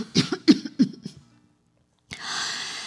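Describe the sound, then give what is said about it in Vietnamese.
An older woman coughs in a quick run of dry, loud coughs that fade out, then silence and a steady low hiss. “Bà ngừng lại, ho mấy tiếng rồi tiếp.”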